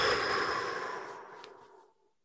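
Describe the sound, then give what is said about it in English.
A deep breath blown out during a guided group breathing exercise: one long, breathy exhale that starts strong and steadily fades to silence over about two seconds. “Let's take one more breath together and blow it out.”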